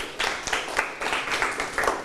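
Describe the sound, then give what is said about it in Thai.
Classroom applause for a classmate: scattered, uneven clapping from a group of students, with sharper claps standing out now and then at a moderate, steady level. “ปรบมือให้เพื่อนครับ”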